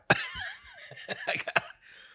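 Coughing from throat irritation after inhaling a dab of cannabis concentrate: a few harsh, raspy coughs, a sharp one at the start and a cluster later, with strained, voiced breaths between them and no talk.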